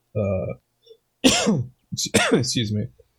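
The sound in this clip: A person clears their throat because something feels stuck in it: a few rough, voiced bursts with short gaps between them, fairly loud and heard alone.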